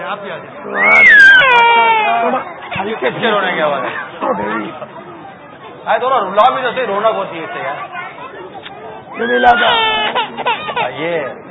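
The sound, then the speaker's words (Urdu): Children cry during a live Madani Muzakra religious gathering, with wailing, wavering cries rising out of steady adult talk in a few separate bursts. “باپا یہ مدنی Monday رو رہے کچھ.”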